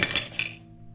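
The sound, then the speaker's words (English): A silver dish dropped and clattering, a couple of bright metallic hits followed by a fading ring that lasts under a second. “You dropped the silver dish. Here. The silver's soft. It dents easily.”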